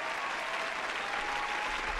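Audience applause welcoming a guest onto a show: dense, even clapping that holds steady and loud through the whole short stretch.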